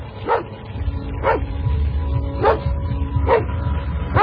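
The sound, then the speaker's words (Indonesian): A dog barks in sharp single woofs, five evenly spaced barks over a low rumbling background with no talking. “Suara anjing yang tadi aku dengar sekarang makin dekat jaraknya.”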